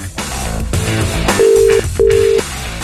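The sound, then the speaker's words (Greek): A telephone call connects to a voicemail answering machine, heard as two steady, even tones of the same pitch, each about half a second long, loud over a busy music bed. “Συνδεθήκαμε με τον προσωπικό τηλεφωνητή.”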